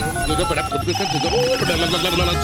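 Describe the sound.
A telephone ring sounds as a radio host calls a listener: a steady, repeating electronic ring tone with bright, sustained tonal layers that runs through the whole clip over a busy background.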